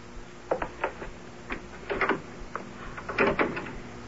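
A locked-looking door is tried and opened, a quiet string of many clicks, rattles and scrapes from the handle and latch, bunched irregularly.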